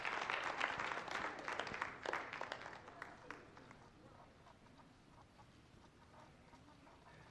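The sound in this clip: A church audience applauds to welcome a speaker joining them for Children's Church. The clapping is dense and fairly faint, strongest in the first few seconds, then thinning and fading away.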